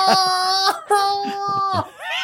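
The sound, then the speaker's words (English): A man whining in a high, nasal voice: a few long, drawn-out whimpering tones held at a steady pitch, ending in a brief wavering squeal. “I don't like when he whines like that.”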